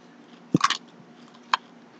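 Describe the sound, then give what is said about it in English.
Crisp crunching of crispy bacon being bitten and chewed: a sharp bite followed at once by a quick cluster of crunches, then a single further crunch about a second later, against near silence. “Just eat the bacon.”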